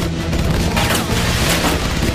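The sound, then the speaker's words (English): Gunfire hits an old motorhome as it speeds away: a loud, dense barrage with a few sharp cracks standing out over a constant heavy rumble. “They open fire on the motorhome as Bix speeds away.”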